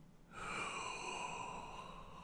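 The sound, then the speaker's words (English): A deep belly breath is drawn in through the body, a long, steady, airy inhale that starts after a brief pause and continues softly to the end. “Now I want you to breathe in belly first.”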